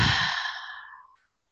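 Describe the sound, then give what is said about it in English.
Deep breath in a guided self-care breathing exercise, heard as one airy exhale through the mouth: a loud breathy whoosh that fades over about a second, then silence. “Just inhale through your nose. And exhale through your mouth.”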